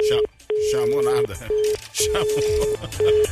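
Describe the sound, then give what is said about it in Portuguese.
Ringback tone of an outgoing mobile phone call: a steady mid-pitched electronic tone in repeating long and short bursts separated by brief gaps, with voices talking over it. “Tô te ligando, hein?”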